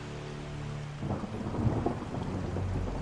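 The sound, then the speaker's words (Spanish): Steady rain with thunder, a broad hiss running throughout as a low rumble swells in after the first second and stays under the downpour. “porque si sigue lloviendo lo vamos a perder.”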